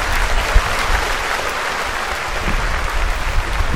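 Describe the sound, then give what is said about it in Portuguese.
A studio audience applauds after a musical performance on a television program, a loud, dense, continuous clapping that holds steady for the whole clip without a break. “Muitos aplausos.”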